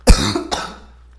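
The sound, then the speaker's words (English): Coughing after choking on saliva: two harsh coughs, a loud sharp one followed by a weaker second, then a brief fading rasp. No talk. “I just choked on my own spit.”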